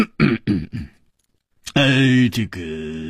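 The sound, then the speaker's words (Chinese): A voice imitating a heavy cough: three gruff throat-clearing bursts, then a pause and a long drawn-out vocal sound. “秋思王立刻重重地咳嗽了一声”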